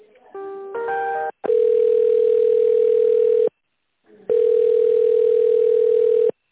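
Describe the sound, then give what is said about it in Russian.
A telephone line tone plays while a call is transferred: a short run of layered beeps, then two long, steady mid-pitched tones of about two seconds each, separated by a brief silence. “Переключаю, трубочку не кладите.”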